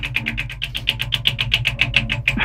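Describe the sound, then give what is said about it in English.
A game-show prize wheel spinning, its pointer rattling off pegs in a rapid, even run of many sharp ticks that lasts a couple of seconds with no voices. “you can now spin the wheel again, but you only win if it lands on a prize”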